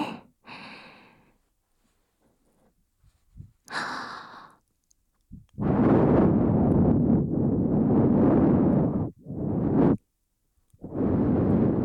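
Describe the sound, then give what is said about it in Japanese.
Breath is blown in gentle puffs during ear care: a few short breathy blows come first, then longer sustained, airy exhalations separated by brief pauses. “最後に、ふうふうしますね。”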